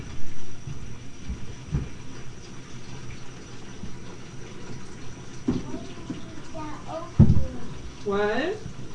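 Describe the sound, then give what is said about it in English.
Water runs into a pail as it fills, a steady rushing hiss with a few brief knocks and gurgling tones near the end. “I have to fill the pail with water. It takes a while.”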